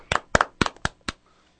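Applause from someone in the booth comes as a few sharp, slightly irregular hand claps, some in quick pairs, before falling silent.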